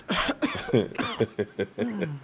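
Harsh coughing after someone inhales smoke: a rapid run of many raspy, partly voiced coughs that come in uneven bursts.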